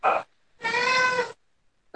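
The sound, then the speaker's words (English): A cat meows twice as it wants to be let out, a short cry followed by a longer, drawn-out, tonal meow, fairly loud with nothing else around it. “whose baby was crying? Or was that the cat? It's a cat. It wants out. It's not getting out.”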